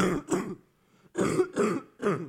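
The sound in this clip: Harsh coughing or throat clearing right into a microphone: two rough bursts, a short pause, then three more in quick succession, loud and close.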